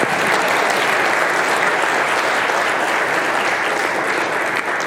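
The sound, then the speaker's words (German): An audience applauds at a lecture discussion about a law. The clapping is dense and sustained, forming a loud, even wash of many hands that runs unbroken for about five seconds. “Oder erstmal Applaus nochmal, ne?”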